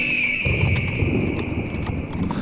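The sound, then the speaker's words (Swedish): Horses trot along, their hooves clip-clopping in a steady run of many rhythmic knocks over a rumbling, noisy background. “Orvar red Fjallar och jag satt bakom Jonathan på Grim.”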